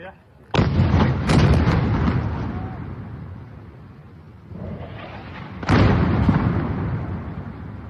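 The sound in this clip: Two heavy explosions from Israeli airstrikes on a building in Beirut, each a sudden loud blast followed by a long, rumbling, crackling roar that slowly fades.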